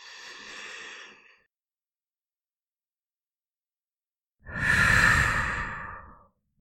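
A deep breath in and out during a relaxation exercise: two airy, sighing breath sounds separated by about three seconds of silence, the second longer and louder than the first.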